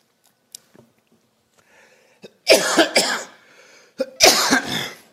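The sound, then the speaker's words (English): Coughing from a person on stage trying to clear something stuck in the throat: harsh, explosive coughs come in two loud bursts after a few faint clicks, with no talk. “as soon as I get on the stage, I get something stuck in my throat.”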